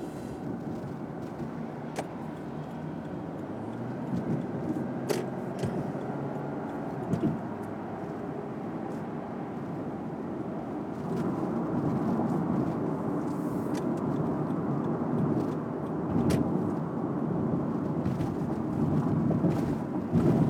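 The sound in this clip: Steady road rumble and wind noise from a car driving across the Golden Gate Bridge, a continuous low roar that swells slightly in the second half, with occasional faint thumps.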